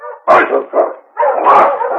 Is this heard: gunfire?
no